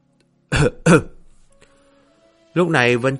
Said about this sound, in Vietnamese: Dương Khánh đành phải ho khan hai tiếng giả vờ